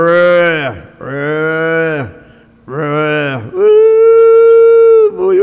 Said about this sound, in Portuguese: mas no curral tirando leite, chamando a vacada para tirar leite, a bezerrada berrando.